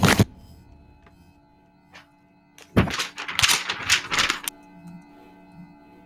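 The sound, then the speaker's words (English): Paper rustling as a letter is drawn out of an envelope and unfolded: a brief thump at the start, then a dense burst of crinkling and crackling for about two seconds, with no talk. “let me unfold the... Take it out of the envelope.”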